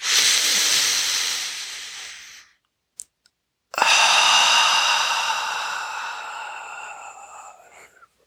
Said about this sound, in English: Inhaling in your belly and exhaling.